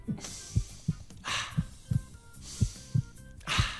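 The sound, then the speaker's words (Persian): Heartbeat during a heart check-up, heard as low, muffled lub-dub thumps in pairs at a steady pace, with soft breathy whooshes between some beats. “اون میخواد قلب تو را معاینه کنم.”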